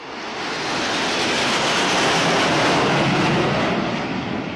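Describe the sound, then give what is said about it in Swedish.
Fighter jets roar low over the rooftops of Paris during the 14 July French national day flyover. A steady, dense roar swells gradually, peaks past the middle and eases slightly toward the end, with no voices. “Frankrikes nationaldag den 14 juli och stridsflygplan flyger lågt över Paris hustak.”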